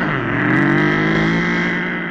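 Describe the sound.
A car engine revs in a loud, steady drone with strong harmonic tones, swelling slightly through the middle and easing off toward the end.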